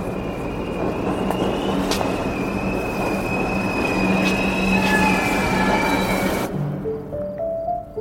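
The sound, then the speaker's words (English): A subway train passes through a station with a loud, steady rumble and high wheel squeals, then the noise cuts off sharply near the end, leaving a few faint tones. “No Wi-Fi. One of the last subway stations without it.”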